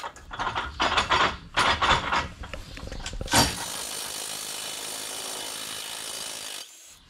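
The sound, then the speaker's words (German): Work on a rusted-tight screw produces about six rough, rhythmic scraping strokes of a tool. A steady, even rushing noise follows for about three seconds, then cuts off abruptly. “Ich kriege die Schraube hier nicht gelöst.”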